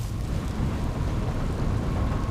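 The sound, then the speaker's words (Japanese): Rain begins to fall in a steady, unbroken hiss with a strong low rumbling undertone throughout. No voices are heard. “だから言ったろ、崩れるって。雨だ。”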